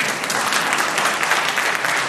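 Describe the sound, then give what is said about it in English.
Audience applause during a panel discussion on technology and children: a steady, fairly loud wash of clapping from many hands lasting about two seconds, with no voices standing out. “Oh, you're allowed to applaud.”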